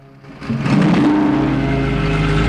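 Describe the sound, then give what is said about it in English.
A car pulls away from a gas station pump, its engine noise swelling quickly and then holding as a loud, steady rumble with broad road hiss. “She drives off.”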